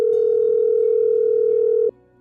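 A steady single-pitched telephone tone on an outgoing early-morning call holds evenly for about two seconds, then cuts off abruptly. No voices are heard.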